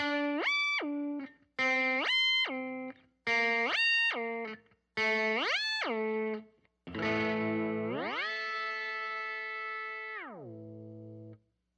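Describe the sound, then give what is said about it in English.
Guitar pitch-shifting and filter pedal effects on distorted guitar: four separate notes each bend sharply up and back down in pitch, followed by a longer sustained chord that glides upward, holds, then sinks lower. “Next, you're going to look at filter or pitch shifting effects. Essentially, effects that sound like this.”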